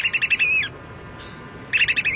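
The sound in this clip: American oystercatcher calls: two bursts of rapid, loud, high piping notes separated by a quiet pause.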